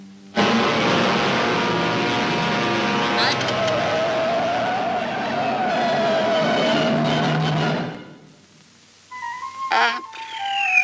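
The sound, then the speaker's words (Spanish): Vehicle air brakes in a Looney Tunes cartoon: a long, loud hissing screech with a squealing tone runs for about seven seconds, then cuts off, followed by a few faint scraping noises. “Menos mal que traía frenos de aire.”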